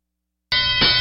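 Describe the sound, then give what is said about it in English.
A bright metallic bell rings out, called for during a wrestling match recap. After silence it strikes sharply, then rings on with a steady, clear, harmonic tone, loud and alone. “ring the bell!”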